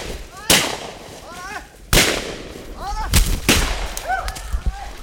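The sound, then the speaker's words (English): Four sharp, loud gunshots at uneven intervals as rubber tappers fire while chasing a scout on a motorbike near illegal logging camps, with birds chirping between the shots. “charge after the biker, firing their weapons”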